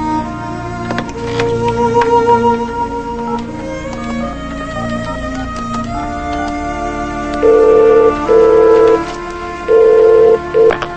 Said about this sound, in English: picks up the phone and dials.